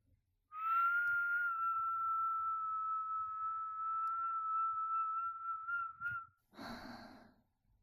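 One long whistled note held at a constant pitch for about six seconds, clear and sustained, then a short, breathy exhale.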